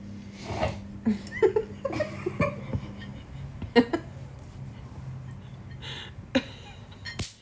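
Choking, sputtering coughs from someone who has inhaled a crumpet up into the nasal cavity, coming as irregular sharp bursts with gasps and throat noises between them.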